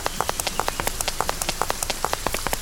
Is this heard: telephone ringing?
no